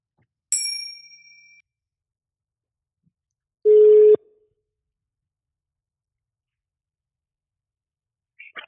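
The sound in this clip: A telephone call to an expert rings out: a bright chime decays first, then a single steady mid-pitched ring tone of about half a second sounds alone, followed by silence and a brief faint noise at the end.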